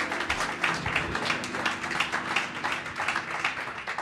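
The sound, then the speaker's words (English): A church audience applauds to welcome a preacher, a dense, steady wash of many hands clapping throughout with no talk. “One more time, would you put your hands together and welcome Brother Anderson as he comes to preach.”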